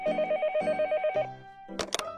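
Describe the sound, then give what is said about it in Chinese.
A telephone rings with a bright electronic trill, several warbling bursts in a row, then breaks off into a short, noisier burst of sound. “明珠起床上厕所时，刚好电话铃响了。”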